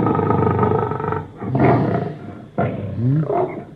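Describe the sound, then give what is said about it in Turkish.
A lion roars in deep, rumbling, growling bursts: a long sustained roar followed by two shorter, loud roaring phrases, with no other sound over it. “Bu da ne? Bu dağlarda aslan mı gezer?”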